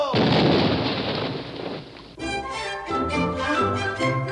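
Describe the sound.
Cannons fire from a pirate ship at a flock of birds in the sky, heard as one long, loud roaring blast lasting about two seconds. Music then takes over.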